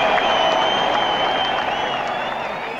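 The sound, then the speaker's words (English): Clapping and cheering from a small group thanking guests at the end of a talk show, a steady, even wash of applause with brighter whoops on top, holding at a level volume throughout. “So let's clap for everybody.”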